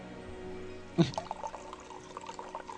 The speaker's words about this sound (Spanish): No estamos meando, lo aclaramos. estamos echando martini en un vaso en un vaso y en la camiseta del amigo.